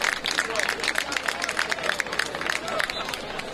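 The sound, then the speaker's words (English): Soccer crowd applauding as a substituted player leaves the field, a steady patter of clapping and crowd murmur under a commentator's voice. “Easer coming out, getting a nice hand from the crowd.”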